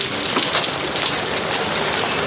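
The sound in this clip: Heavy May rain pours down in a steady, dense hiss with no breaks, a constant wash of falling water that stays even in loudness throughout.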